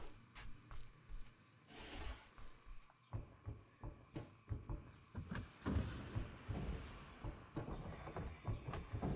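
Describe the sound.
A door opening onto a veranda gives a long series of clattering knocks, rattles and scrapes, irregular and fairly faint, building to a busier stretch midway.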